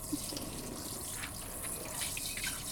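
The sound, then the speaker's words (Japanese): Water running from a tap while a rice bowl is rinsed, a faint, steady splashing hiss heard alone. “すすいで、すすいで、お茶碗は”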